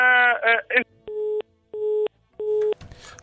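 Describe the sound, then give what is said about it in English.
A telephone busy signal after a dropped call: three evenly spaced mid-pitched beeps, each about a third of a second long. A brief voice comes before them and a short burst of noise after. “We lost connection with that caller. Please call us back when you get a chance.”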